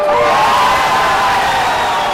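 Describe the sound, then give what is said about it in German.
Deafening cheering from SPD supporters in the Littermundhalle in Nalbach as an election winner is announced, a sustained, loud wall of shouts and whoops that holds steady throughout. “Ohrenbetäubender Jubel seitens der SPD-Anhänger in der Littermundhalle Nalbach.”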